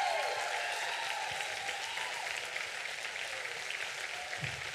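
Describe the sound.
Audience applause welcoming a speaker as people stand, a steady, dense wash of clapping that holds at an even level from start to finish, with a few whistling tones riding above it.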